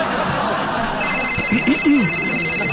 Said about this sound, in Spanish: ya me están marcando también